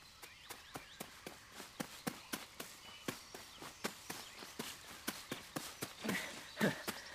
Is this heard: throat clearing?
no